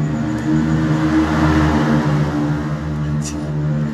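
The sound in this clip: High-displacement Yamaha and Kawasaki motorcycles rev past at night beside the Mandalika racing circuit, producing a loud, steady engine drone with a rough, throaty hum that holds for the whole stretch without a clear rise or fall.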